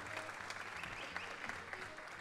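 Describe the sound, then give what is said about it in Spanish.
A studio audience applauds with dense, continuous clapping that stays even and faint throughout. “Pueden aplaudir así la gente en Catamarca, en Neuquén y en todos los lugares nos cree que esto es con público.”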